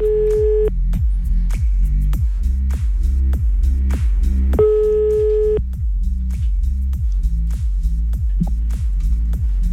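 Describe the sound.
Telephone line tones as a call is placed: two short, steady ringing tones sound several seconds apart over a constant rhythmic low throbbing pulse that runs throughout.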